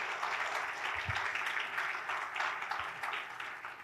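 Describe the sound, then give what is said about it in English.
A church audience applauding in welcome at Chicago West: a steady wash of many hands clapping at a moderate level, continuing without pause from start to finish. “So let's give him a warm Chicago West welcome.”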